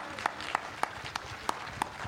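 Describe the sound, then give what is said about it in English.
Audience applause after a discussion at a live event, heard as six sharp, evenly spaced claps standing out over a low, steady background murmur. “Give them a huge round of applause.”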